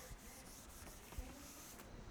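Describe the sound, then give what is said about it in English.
Writing being erased from a board, heard as soft, faint repeated rubbing strokes with an uneven rhythm and no talk. “I'm going to erase it. I'm going to erase, and I am going to...”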